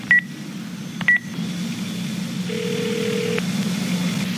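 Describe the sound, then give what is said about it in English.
A telephone dials a number to call it back: a few short keypad beeps, then a longer, lower steady tone, all over a constant low hum. “Let me call the number back just to be sure if it's really who I think it is.”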